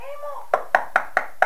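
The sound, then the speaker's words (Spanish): Five sharp, evenly spaced knocks on a house door, each a crisp, loud rap, coming after a brief voice-like tone at the start. “Ahí están golpeando. Estamos escuchando que están golpeando en la casa.”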